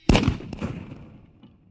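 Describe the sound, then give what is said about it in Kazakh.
Gun fired at a flock of flying cranes: one sharp, loud crack, then a fainter second report and a rumbling tail that slowly fades. “Мылтық шартлый.”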